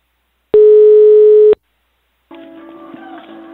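Telephone line tone while a call is being placed: one loud, steady, even tone lasting about a second, then silence, then a fainter, busier sound on the line.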